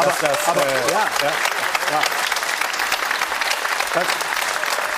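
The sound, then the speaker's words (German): Applause from a Munich crowd for FC Bayern's 11 league titles, a thick, continuous roar of clapping with cheering voices rising above it at moments. “dass sie natürlich in München hier Applaus dafür kriegen für 11 Meistertitel, sind Fakten.”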